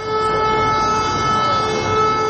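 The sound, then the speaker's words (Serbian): An all-clear civil-defence siren in Serbia signalling the end of danger: a steady, unbroken tone held at constant loudness throughout, with no rise or fall. “Ali ne samo zvona. I sirene za prestanak opasnosti.”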